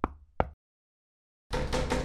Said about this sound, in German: Komm, wir klopfen mal.